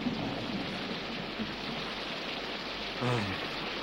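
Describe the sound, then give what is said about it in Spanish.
Rain falling in a steady, even hiss of dense drops that holds at a constant level throughout, with a brief slightly louder swell near the end. “Llueve. Es cierto.”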